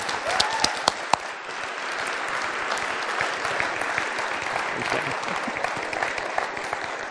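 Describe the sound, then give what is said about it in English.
An audience at a church service claps to welcome a speaker, steady loud applause that holds throughout with a few sharp louder claps early on. “Let's welcome Carl Medeiros. Put our hands together.”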